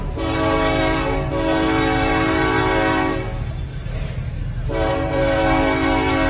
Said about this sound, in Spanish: El tren está sumamente cerca.